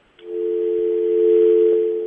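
After a dropped phone call, a steady telephone tone sounds alone: one continuous, unbroken mid-pitched hum that starts abruptly after a faint click and holds at an even level for about two seconds.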